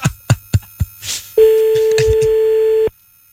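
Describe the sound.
A French telephone ringback tone sounds while someone calls a person back and the call then goes to voicemail. A few short, sharp knocks come first, then one steady, unbroken tone holds for about a second and a half before stopping.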